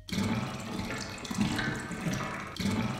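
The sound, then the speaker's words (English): Sewer water sound effect from a video game: rushing, gurgling water that surges in a few swells and flows continuously throughout. “Sewer. Here's a sewer.”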